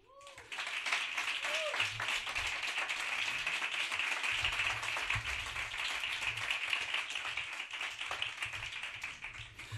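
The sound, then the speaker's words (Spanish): Applause welcoming a guest onto a radio show: steady, dense clapping begins after a brief moment and continues unbroken to the end, with low sounds underneath. “Y para arrancar, el primer aplauso de la noche se lo lleva la voz que pone el sexo en nuestra radio, en la cadena Ser.”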